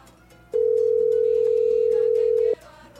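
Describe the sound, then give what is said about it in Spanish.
A telephone dial tone sounds while a listener is called live on air: one steady, unbroken mid-pitched tone lasting about two seconds, with faint background sound before and after. “Vamos a marcar un oyente completamente en vivo.”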